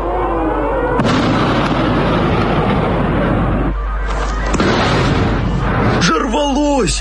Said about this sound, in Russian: Прикинь, вон, смотри, прям передо мной взорвалось, вон.